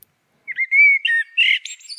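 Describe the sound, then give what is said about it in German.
Common blackbird singing a short phrase after a moment of silence: fluty warbling notes that break into higher twittering toward the end, clear and alone. “Den Gesang von Amseln kann man übrigens so besonders gut hören und erkennen, weil sie alleine singen und dabei immer erhöht sitzen.”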